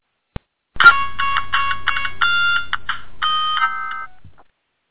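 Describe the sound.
An electronic telephone ringtone plays for an incoming call: a bright, melodic series of beeping tones lasting several seconds, preceded by a single short click.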